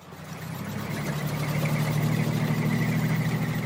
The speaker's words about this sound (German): Im Hintergrund fährt ein Schützenpanzer vom Typ Marder vorbei.